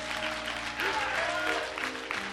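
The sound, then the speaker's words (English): Congregation applause at a church service, a steady wash of dense clapping that holds at an even loudness from start to finish, with voices present under it. “Let's give the Lord a thunderous applause and bless him”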